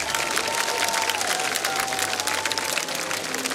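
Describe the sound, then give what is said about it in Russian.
Festival guests applaud the Abkhaz participants of a music contest, a dense, steady burst of many hands clapping that stays even and lively throughout, with only faint crowd murmur beneath. “Я попрошу гостей фестиваля подарить аплодисменты всем абхазским участникам нашего конкурса.”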